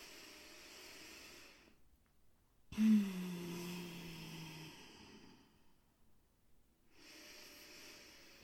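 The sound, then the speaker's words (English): Deep guided breaths, drawn in through the nose and let out through the mouth in a relaxation exercise, come as a few soft, airy rushes of breath separated by short silences, faint and unhurried. “taking an inhale through the nose. And exhale out the mouth or out the nose. Do that just a couple of more times.”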